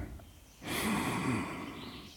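One long, deep breath, soft and airy, swells in after a quiet start and then slowly tapers during a calming exercise while leaning against an old tree.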